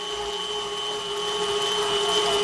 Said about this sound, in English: we're off to the grinder, which is a grinder attachment attached to a stand mixer.